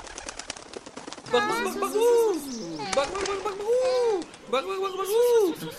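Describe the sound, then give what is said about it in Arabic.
Pigeons cooing as birds gather close in a park: a few drawn-out, rounded, rising-and-falling coos follow a burst of quick fluttering clicks at the start. “ولما اقتربت منه الطيور قال أحدهم”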